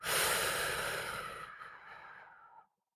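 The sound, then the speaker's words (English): One long, sigh-like breath from a guided breathing exercise, airy and fairly loud at first, then tapering off for about two and a half seconds before stopping abruptly, with no talk. “So breathe in and breathe out.”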